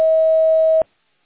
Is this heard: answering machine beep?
yes

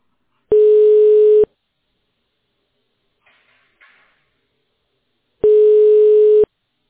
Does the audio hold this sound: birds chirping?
no

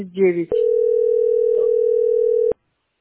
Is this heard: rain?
no

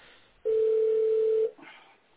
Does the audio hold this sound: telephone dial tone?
yes

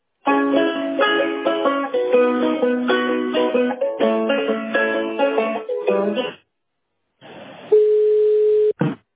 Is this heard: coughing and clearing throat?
no

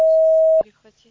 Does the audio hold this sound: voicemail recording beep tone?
yes

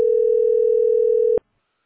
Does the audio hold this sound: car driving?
no

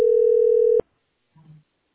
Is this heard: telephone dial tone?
yes

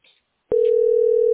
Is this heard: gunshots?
no

